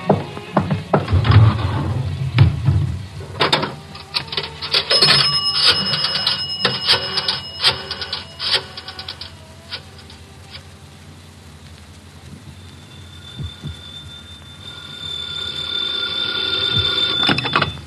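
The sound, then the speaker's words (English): Telephone ringing on a call placed from a public phone booth, bright ringing tones among rattling, clattering noise that is busiest early on, with no talk. “Pardon me a second, will you, Valerie? I got to make a phone call. There's a booth. It'll only take a minute or two.”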